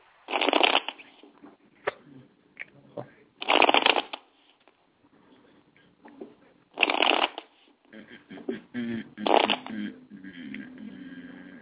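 A deck of cards shuffled before a card reading, in several loud riffling bursts separated by quieter handling and tapping of the cards.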